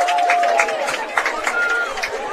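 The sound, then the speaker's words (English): Fans cheer in the stands at a high school football game between Lee-Scott Academy and Fort Dale, a rolling mix of yells and raised voices that stays fairly loud with uneven swells. “Lee Scott fans are cheering. I'm just trying to figure out what's going on. I think they cheered for the stunt down on the sideline with the cheerleaders.”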